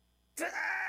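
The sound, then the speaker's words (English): A person groans in pain: a single abrupt, loud, strained vocal tone that starts suddenly after brief silence and holds for about half a second. “This is the sound of pain.”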